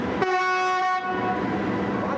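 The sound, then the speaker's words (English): A train whistle sounds as the passenger train from Basra leaves the station platform at the start of its 12-hour return journey: one steady, sustained tone that cuts off after under a second, followed by a continuous rumbling train noise. “At 10:30, there's one more whistle from the Basra train before it leaves the platform on the return journey.”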